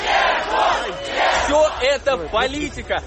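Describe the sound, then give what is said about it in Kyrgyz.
Supporters outside a courthouse loudly shout the name of a defendant who has just received a suspended sentence. Many voices rise in ragged, chant-like bursts that break into separate calls toward the end. “Шарттуу кесилген Жуков сот имаратынан чыкканда топтолгон адамдар бир кыйлага анын атын атап кыйкырып колдоп туруштум.”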